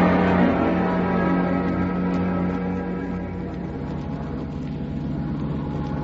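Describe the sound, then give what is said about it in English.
Aircraft engine at full throttle, a steady, loud, low droning roar with constant humming tones that holds evenly throughout, alone without voices. “All clear, full throttle.”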